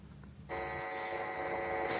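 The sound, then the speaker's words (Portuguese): A telephone rings with an incoming call to a radio show, a steady electronic buzzing tone starting abruptly and holding evenly to the end. “Temos aqui o gadget a telefonar, vamos atender.”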